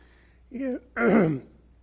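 Throat clearing from something stuck in the throat comes as two short, raspy voiced bursts, the second longer and louder than the first.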